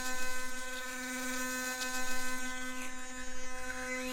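An electric toothbrush buzzing steadily at a constant pitch, its hum pulsing slightly in loudness throughout, with no voices over it.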